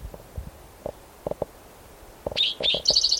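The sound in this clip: A spotted toad calling near the end: a short run of rapid, high-pitched trilled pulses that follows a few soft, low knocks and thumps scattered through the quieter start.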